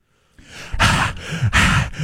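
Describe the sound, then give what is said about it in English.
Loud, heavy breathing through the mouth, with two strong rasping breaths alternating with softer ones in a steady rhythm, and no talk. “why are you breathing through your mouth?”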